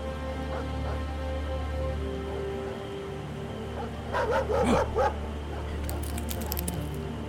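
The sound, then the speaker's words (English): A pack of hounds barks and yips at daybreak in a short, loud burst midway through, over a steady low background hum. “I woke with a start by a sound that told me I had new things to learn about fear. A pack of hounds.”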